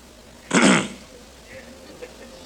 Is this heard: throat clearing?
yes